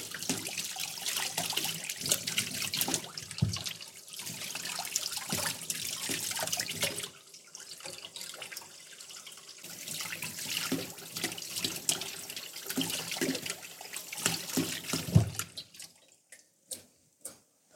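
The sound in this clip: Hot tap water runs steadily as hands are washed beneath it, its faint splashing shifting as the hands move. The flow then stops, leaving a few separate drips.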